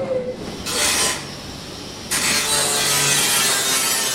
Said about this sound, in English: I'm going to go around and get some sounds from the weld shop.